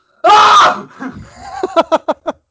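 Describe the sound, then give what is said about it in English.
A person sneezes as a loud scream away from the microphone, producing one long, bright, strained cry. Softer breathy sounds follow, then a few short rhythmic bursts. “I try to scream when I sneeze. So like, I'm gonna get away from the microphone as I do this. I'll just go,”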